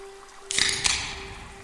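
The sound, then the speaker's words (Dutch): A can of Cara Pils beer cracks open with a sharp, hissing pop and a second quick snap, then a fading fizz, over a faint steady hum. “Blikje gaat open.”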